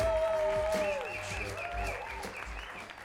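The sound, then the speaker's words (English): A cabaret audience applauds the show's crew with dense, continuous clapping and crowd voices mixed in. The sound stays quiet and fairly even from start to finish. “A big applause for all the crew!”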